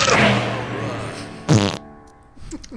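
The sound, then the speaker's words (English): A buzzy fart noise inside a song: a loud, long blast with musical tones, then a shorter burst, then quieter sound. “That fart is just the best part of that song, hands down.”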